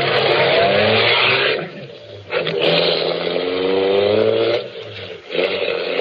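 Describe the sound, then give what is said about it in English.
A car drives away, its nearly empty fuel tank headed for a garage: a steady, loud engine drone with strong low harmonics, briefly dipping in level twice before resuming. “I drove back to the garage.”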